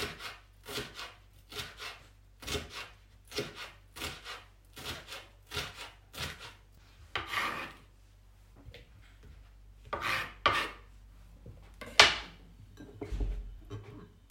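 A knife cuts a bell pepper into small pieces on a cutting board. Many steady, evenly spaced chopping strokes knock and scrape, with a few louder cuts near the end.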